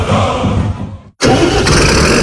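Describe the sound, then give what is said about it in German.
A Fendt Vario tractor engine starts: loud rumbling drops briefly to near silence, then bursts into a loud, steady running roar. “Worauf kommt es bei einem Traktor an? Kraft, Zuverlässigkeit, Flexibilität, technisch ein Alleskönner. Entwickelt für die moderne Landwirtschaft und ihre Ansprüche. Genau deshalb ist der Fendt Vario”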